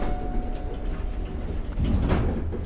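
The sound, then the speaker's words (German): An elevator descends seven floors to an underground hall at a physics research center, with a continuous rumbling hum and a faint thin whine, swelling louder toward the end. “Dann nimmt Ringwald den Fahrstuhl, fährt sieben Stockwerke abwärts”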